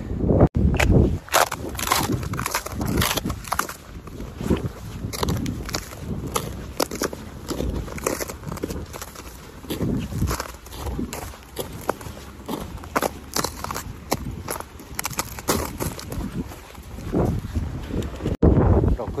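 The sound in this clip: Footsteps of someone walking outdoors on a cold day while out with a dog, many steps in a continuous, steady rhythm with a crackly texture and a few louder footfalls along the way.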